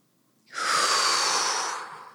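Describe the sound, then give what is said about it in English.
A single deep breath in, an airy, rushing inhale that starts after a short silence, holds strongly for about a second and a half, then tapers slightly at the end. “Big breath in.”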